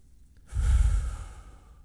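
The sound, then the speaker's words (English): A single deep breath taken during a group prayer: a soft, breathy rush that swells and eases away over about a second, heard alone with no talk. “Take a deep breath and think of the Lord's presence closer to you than that breath.”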